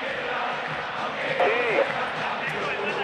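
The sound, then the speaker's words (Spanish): Football stadium crowd cheering a goal in a River match, a broad, steady roar with a brief swell in the middle, while commentators talk over it. “Coudet no quiere ni festejar, el público sí.”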